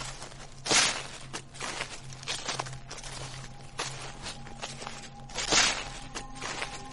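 Footsteps crunching and rustling through dry leaves, with several irregular scuffing steps, two louder crackling treads standing out, and a steady low hum beneath.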